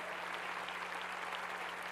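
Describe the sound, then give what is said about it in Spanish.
A church audience claps for the word of the Lord, fairly quiet, with many hands beating evenly throughout over a faint steady low hum. “Dale un aplauso a la palabra del Señor.”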